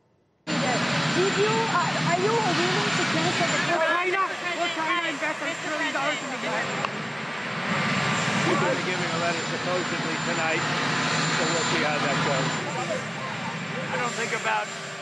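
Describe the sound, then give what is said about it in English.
Steady, loud engine and rotor roar from the presidential helicopter runs nearly the whole clip, with people talking over the din. “incomprehensible impromptu press events drowned out by the sound of Marine One.”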